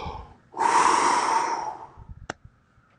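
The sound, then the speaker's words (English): A voice imitates God breathing life into humankind with a long, forceful breath blown out that holds steady for over a second, followed by a few small snorts and clicks. “God took a pile of dust, He put it together, and it says God breathed”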